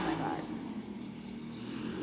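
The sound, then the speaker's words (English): An old car drives past with a faint, low engine rumble that holds steady through the short moment. “What are they driving? Some like old car?”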